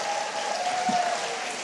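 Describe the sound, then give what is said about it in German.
Applause from an audience forms a steady, dense wash of clapping that holds at an even level for the whole short stretch, with no voices standing out. “Das ist von ihm, Applaus für Marker.”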